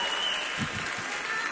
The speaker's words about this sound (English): That is the sound of a standing ovation